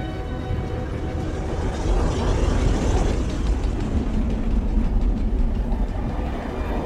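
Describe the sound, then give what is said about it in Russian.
A train rolls along the track with a loud, steady rumble. A faint rhythmic clatter of wheels runs through the noise, which holds a constant level throughout, with no voices. “садится в поезд. Едет.”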